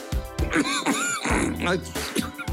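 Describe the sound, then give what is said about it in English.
A man clears phlegm from his throat in a series of harsh, guttural rasps and grunts, repeated in several loud bursts. “Mike Leach goes to absolute war with the phlegm in his throat”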